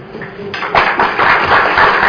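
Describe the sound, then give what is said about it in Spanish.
An audience applauding at the start of an event: quiet at first, then a dense burst of clapping swells in and continues at a full, even level to the end. “Un aplauso a ustedes.”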